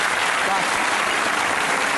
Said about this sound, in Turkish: Bence şu ikisi bir alkış hak etti.